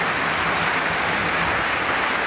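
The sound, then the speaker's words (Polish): Audience applause at a concert welcoming young students from seven music schools in Warsaw and Masovia: a dense, even roar of many hands clapping, steady and full. “Przywitajmy ich brawami. Gromkie brawa! Nie szczędźcie dłoni,”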